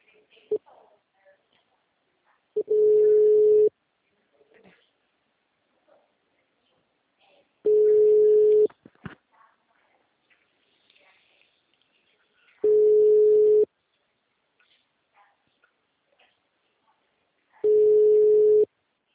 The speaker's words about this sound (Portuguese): Tá ok, eu tô ligando aí para você, tá?